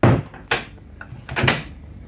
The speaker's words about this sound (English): Oh, I'm sorry. The door again.